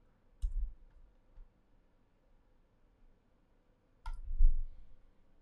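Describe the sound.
Two computer mouse clicks while something is looked up on Twitter, each a sharp tick with a soft low thump, separated by a few seconds of near silence.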